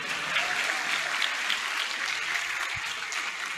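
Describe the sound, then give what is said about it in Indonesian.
Audience applause from a crowd at a gathering: a steady, even wash of clapping that continues for the whole clip without pause, fairly soft in level, with no voices standing out. “mau tepuk tangan lah”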